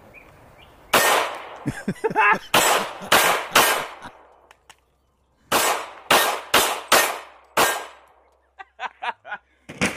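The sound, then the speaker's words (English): Shots from a Hi-Point pistol with a bent slide and a damaged chamber: many loud, sharp bangs fired in quick strings, a short pause midway, then a cluster of smaller pops at the end. “If you make a gun that can take a bullet through the freaking chamber and bend the slide and it still runs?”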